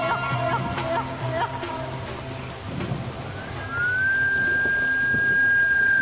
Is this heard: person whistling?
yes